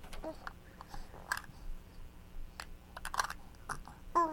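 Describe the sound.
A child chews a cookie, with a few faint, crisp crunching bites scattered across a quiet background.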